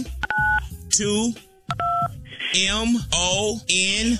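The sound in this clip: Telephone keypad dialing tones come in two short bursts of beeps, with a voice talking between and after them.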